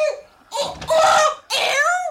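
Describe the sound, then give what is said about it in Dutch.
A voice imitates a hen screeching in anger, giving harsh, shrill squawking cries in two loud bursts after a faint opening sound, with a wavering tone and no other sounds. “Krijsend van woede kwam Leentje eruit.”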